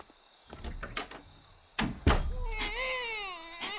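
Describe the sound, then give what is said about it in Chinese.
An infant cries in a thin, wavering, fairly quiet wail that follows a few dull thumps and knocks. “哦，哦，呵呵乖啊，呵呵乖，别哭啦，别哭啦，妈妈抱。”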